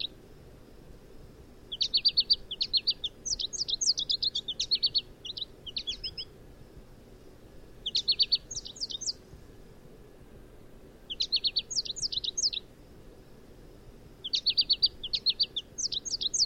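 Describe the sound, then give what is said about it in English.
American goldfinch song: bright, high, rapid twittering phrases in several separate bursts, each a few seconds long, with short quiet gaps between them over a low, faint background hum. “So this is a song of the American goldfinch.”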